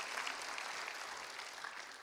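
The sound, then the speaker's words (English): Church audience applauding during a sermon: dense, steady clapping from many hands, fairly soft and even, with no break throughout. “If you're thankful for the sacrifice of Jesus, would you give him a big round of applause in this place?”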